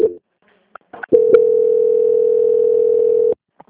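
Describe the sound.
A telephone line tone plays during a call transfer. After a few brief clicks and blips, a loud, steady single-pitched tone holds for about two seconds and then cuts off abruptly.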